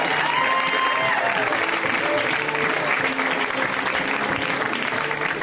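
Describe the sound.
Dense, steady applause from a crowd welcoming a comedian, with clapping at an even, full loudness throughout and some crowd noise mixed in.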